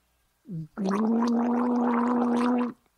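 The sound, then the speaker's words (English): A person gargling water in the back of the mouth: a brief voiced lead-in, then a loud, steady, bubbling gargle held for about two seconds before it stops. “That's to gargle. That's just an extra little bonus for listening to this episode. You get to hear me gargle.”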